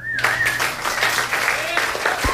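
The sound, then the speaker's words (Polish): Concert audience applause after an emotional live performance at a New York concert in 1993, a broad patter of clapping with sustained tonal sounds threaded through it, fairly even in level. “Brawa jak najbardziej zasłużone.”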